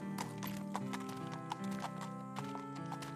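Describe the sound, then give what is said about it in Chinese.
Pony hooves clip-clopping as the animal carries a rider on a long, hard journey while a man walks alongside. Several sharp, hollow knocks fall at an uneven walking pace over steady music. “旅行是艰难的，约瑟走路，玛利亚骑在小马上。”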